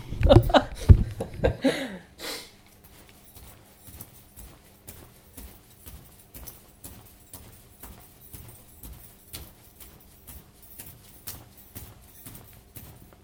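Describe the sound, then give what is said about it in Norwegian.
A person jumps on the floor to stress-test a sore ankle, making many regular, dull thumps in a steady rhythm. The thumps follow a brief burst of laughter and voices at the start. “Er det noe man kunne gjort for å stressteste ankelen din litt for å få fram irritasjonen som har vært med og gjort vondt? Å hoppe? Ja. Det går igjen. Det blir dårlig radio, men det gjør seg bra her inne.”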